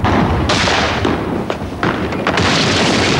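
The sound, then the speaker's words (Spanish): A grenade launcher fires at a coastal cannon in a combat scene: several heavy, sharp booms and thuds burst out at irregular intervals over a rumbling background. “Disparan un lanzagranadas contra un cañón costero.”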